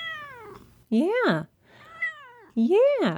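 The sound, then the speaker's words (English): A cat meowing: two loud, drawn-out meows, each rising and then falling in pitch, with quieter voice-like sounds before each one. “And my cat Midori, who is helping me record today, says thank you as well.”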